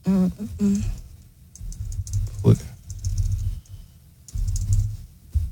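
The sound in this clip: Fingers type on a computer keyboard while entering a search in a messages app, with bursts of quick clicking keystrokes under people talking.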